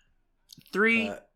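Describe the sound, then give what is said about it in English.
A few soft, quick computer mouse clicks tap out faintly before a voice starts speaking over the quiet. “I will click that one. 3, 2... Oh, wait. I'm going to click it. I'm going to pause it.”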